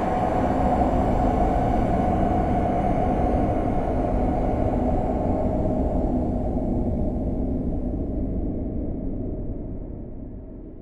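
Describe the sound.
Aircraft engine drone during flight shortly before landing, a constant, heavy low rumble that stays steady throughout and softens slightly near the end.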